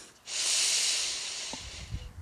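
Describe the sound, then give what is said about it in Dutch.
A deep breath in and out during a guided relaxation meditation: one long, airy rush of breath, steady and fairly loud for about two seconds, then fading with a few soft low thumps. “En we gaan diep inademen en we blazen alles uit. Dat doen we nog één keer. Haal adem.”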